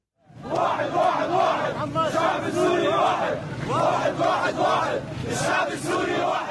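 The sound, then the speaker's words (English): Protesters chanting in unison while marching through the streets of Mara, a Syrian town near Aleppo, loud rhythmic crowd chants rising and falling in repeated pulses. “That's the sound of protesters marching through the streets of Mara.”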